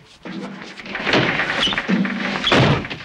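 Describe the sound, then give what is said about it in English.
A man being slammed repeatedly against a glass door on a front porch: a few heavy thuds and rattling bangs come in separate bursts, each loud and abrupt. “Then he manhandles him out onto the front porch, slamming him repeatedly against the glass door.”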